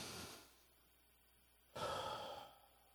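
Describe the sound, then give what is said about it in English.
A group at a church gathering takes a deep breath together: a soft exhale at the start, a quiet pause, then a fuller rushing breath that fades out, all faint. “let's all just take a deep breath together real quick.”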